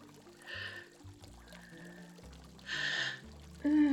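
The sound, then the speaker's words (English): Water trickles from a marble nymph fountain statue in soft, splashy bursts that come and go over low, steady music. “The water dripping from the cunt of this marble nymph you've chained me to.”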